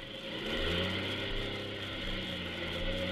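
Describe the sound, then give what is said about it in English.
Aircraft engines running rough and failing in flight give a loud, steady drone, with a low harmonic hum under a broad mid-range roar and no voices. “The motors. Sounds bad. If I can just get her to catch again.”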